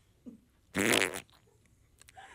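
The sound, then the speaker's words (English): Fart: a single loud, buzzy blast lasting about half a second, standing out against an otherwise quiet background. “Oh, we heard it. That was a fart.”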